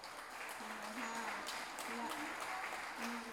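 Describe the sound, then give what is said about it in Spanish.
Audience applause for a family at a pluricultural gathering of living languages in Salta. Moderately quiet, steady clapping continues throughout while voices call out over it. “les pido un fuerte aplauso para su familia”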